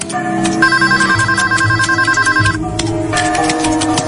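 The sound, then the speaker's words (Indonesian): An office telephone rings loudly on its own with a bright electronic ringtone, repeated warbling tones running in a steady pattern, a short break, then the ringing starts again. “Tak lama kemudian, telepon kantor berdering.”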